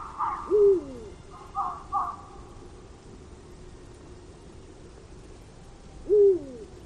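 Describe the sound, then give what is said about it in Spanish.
Eurasian eagle-owls calling at night in an oak wood in winter: two deep, resonant hoots several seconds apart, with another pair of calls between them, over a quiet background. “este que canta, este que dice bú, es el búho real. Es la llamada de los búhos reales.”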